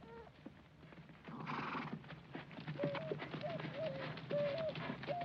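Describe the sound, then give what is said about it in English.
Horses ridden into a camp alongside soldiers make a steady run of faint clip-clopping hoofbeats that carry on throughout. “McAdams and High Spade just before, as they ride into the camp with the soldiers”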